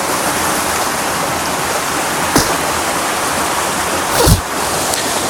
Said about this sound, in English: For I have found a waterfall that I'm sure somebody has been to,